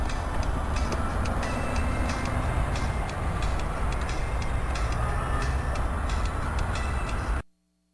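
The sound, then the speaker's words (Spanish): A train rolls past with a loud, constant rumble and rhythmic clicking from the wheels, holding an even level until it cuts off abruptly just before the end. “¡Ahí viene el tren!”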